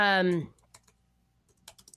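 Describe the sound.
Computer keyboard typing while someone looks something up online: a short burst of voice opens, then soft, scattered key clicks come in sparse clusters, faint and irregular.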